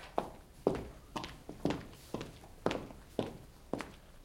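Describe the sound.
Footsteps of one person walking at dawn in the Hôtel Saint-Paul in Paris, 1395: a steady series of sharp, distinct steps at an even pace, alone with no voices.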